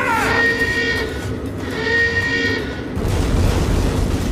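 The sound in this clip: Naval gunfire in a staging of Othello: a ship's guns let loose a deep, rumbling blast that starts abruptly after a tonal, voice-like passage and rolls on loudly to the end.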